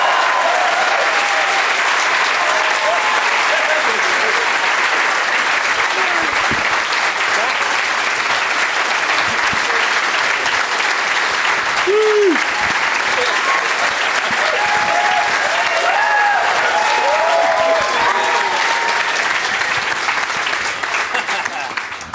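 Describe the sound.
Loud, continuous applause from a show audience welcoming three first-time guests, a thick, unbroken roar of clapping with a few voices calling out over it before it trails off at the end.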